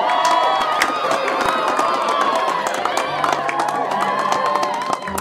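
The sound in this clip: Cheering and applause rise from an audience as a performer is welcomed on stage to play her own song, a dense, steady wash of clapping and excited crowd voices that eases slightly at the very end.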